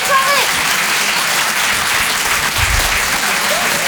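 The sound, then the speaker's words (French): Comedy club audience applause: a thick, steady patter of many hands clapping. It is loud and sustained across the whole stretch, with a few faint shouts mixed in. “vous pouvez vous applaudir très très fort”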